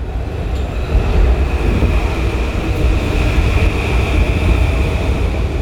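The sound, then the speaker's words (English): Metal-on-metal screeching and a heavy rumble from a 100-ton Metro-North train barreling past a station early on a dark, cold morning: a loud, continuous roar with a steady high squeal running through it from start to finish. “Metal on metal, screeching, rumbling sound of a 100-ton Metro North train barreling past the Noroten Heights train station at 6:26 in the morning. That was the train”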